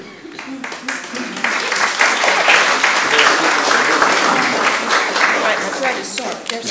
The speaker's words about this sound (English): And I also assumed that applause was for Gail and not me, but that's fine.